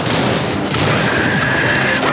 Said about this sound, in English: Those were ninjas that exploded. Their heads exploded.